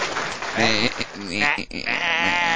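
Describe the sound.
A person imitates a goat's bleat, producing a few wavering, tremulous bleats with a strong nasal buzz. The sounds are loud, and each one shakes in pitch.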